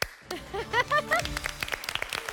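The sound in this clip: A quiz team applauds before the answer is revealed. Scattered, fairly light claps sit under a speaking voice and grow more frequent toward the end.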